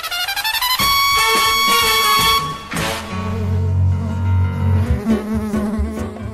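Bees buzz as they start to fly from combs kept under a roofing sheet and in a drum: a loud, dense, continuous drone with strong overtones that shifts in texture partway through.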